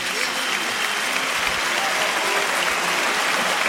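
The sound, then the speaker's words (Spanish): Crowd ovation at a bullfight in a bullring: dense, sustained applause with clapping that stays loud and steady from start to finish. “La ovación ha sido tremenda, ¿eh?”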